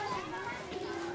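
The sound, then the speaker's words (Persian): Children's voices and play fill a busy old courtyard, as faint, indistinct chatter heard for a brief moment. “افرا و چند تا از بچه ها وارد یک حیاط قدیمی شلوغ میشن.”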